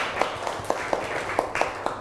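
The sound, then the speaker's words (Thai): Classroom applause for a student who gave a correct answer: many light, quick hand claps in a steady patter, fairly thin and moderately loud, with no voices. “ปรบมือให้เพื่อนหน่อยเก่งมาก”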